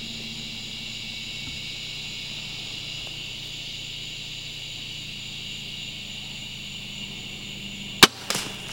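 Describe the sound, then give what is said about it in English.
A crossbow fires a bolt fitted with a Lumenok lighted nock, shot high and ricocheting. A long, steady low hum comes before one sharp crack near the end, which is followed by a brief, rattling tail. “Okay, as you can see, he shot high. Interesting enough, it ricocheted. Now here's the slow motion. As you can see, it ricochets up. The arrow actually went straight ahead. What you see flying up is the Luminok coming out of the bolt.”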